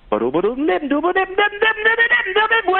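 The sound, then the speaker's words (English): A voice scats, imitating a saxophone line with quick, clipped syllables. The line slides upward and then settles into a bright, mid-range melody, loud and alone. “Scatting is really, it's just making the sound or imitating the sound of an instrument with your voice. So, like, if you're trying to do something that a saxophone would play with your voice, it might sound like...”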